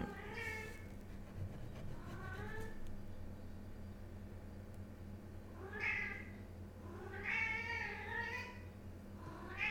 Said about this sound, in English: It's my cat.